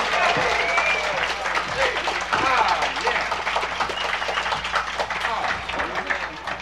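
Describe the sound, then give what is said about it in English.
Audience applause welcomes a nine-year-old fiddler onto the stage at a bluegrass show: dense, sustained clapping fills the whole stretch at an even loudness, with a voice faintly audible beneath it. “Would you welcome Ronnie Stewart? How about a nice hand for Ronnie?”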